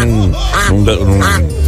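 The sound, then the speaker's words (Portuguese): A duck quacks loudly in a continuous series of several harsh, nasal calls with no pauses between them. “não é galo, é pato.”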